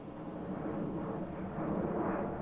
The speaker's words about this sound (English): This is the sound of a Southwest Boeing 737 airplane.